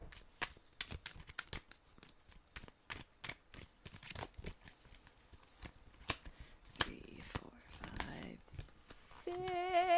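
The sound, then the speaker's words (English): Rapid, crisp flicking and snapping of tarot cards being shuffled, with many quick papery riffles in uneven bursts and soft whispery rustles, while faint voices come and go. “okay, I promise I have shuffled these cards.”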